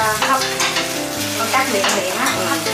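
Vegetarian dishes stirred and fried in a pan, with a steady, bright sizzle and repeated scraping strokes of the utensil continuing throughout.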